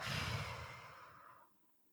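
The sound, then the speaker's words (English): A deep breath let out in one long, soft sighing exhale that fades steadily over about a second and a half, faint and alone with no talk. “I want you to take in a deep breath let it out.”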